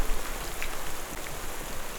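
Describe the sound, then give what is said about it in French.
Intense rain pours down in a dense, steady hiss of countless drops, loud and unbroken throughout. “l'humidité, la pluie devient trop intense.”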